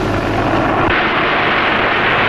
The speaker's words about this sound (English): Finally, after a complete survey of the exhibition, the giant airship lands again. Once more with the utmost ease and grace.